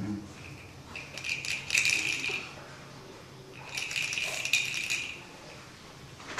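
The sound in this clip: Dice shaken for a board game make two bursts of rattling clatter, each lasting about a second and a half, separated by a quieter pause.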